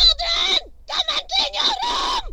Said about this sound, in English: if we look at two screams, here's the first one. This one was recorded at the ground.